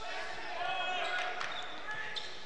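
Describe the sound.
A basketball dribbled during a game gives a string of soft, rhythmic bounces, low and faint beneath steady crowd noise while people talk.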